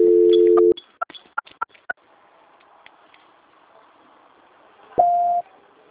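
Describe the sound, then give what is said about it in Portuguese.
Telephone voicemail tones: a steady low tone lasting under a second, then a few sharp clicks, a quiet stretch, and finally a short, brighter, higher-pitched beep. “Please leave your message after the tone. When done, hang up or press the pound key.”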